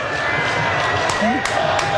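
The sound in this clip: Crowd roar at a Seattle soccer match as fans cheer the United States men's national team manager, Mauricio Pochettino: a dense, steady wall of voices and cheering with a few thin whistling tones above it.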